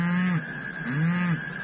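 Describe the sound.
A cow on a farm mooing: a drawn-out, steady low call with a slightly wavering pitch, loud and sustained without a break.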